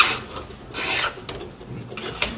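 Rasping, scratchy scrapes from a lock being picked with a handmade tool, turned and wiggled inside the lock. A few uneven rubbing strokes end in a sharper tick near the end.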